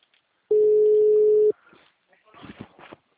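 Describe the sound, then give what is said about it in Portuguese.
Telephone ringback tone while calling someone, a single steady mid-pitched beep lasting about a second, followed by a voice. “Tentando ligar pra ela.”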